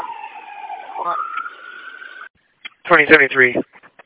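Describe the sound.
An ambulance siren wails as it passes, a steady tone that rises and then holds before cutting off, followed after a short gap by a brief burst of speech.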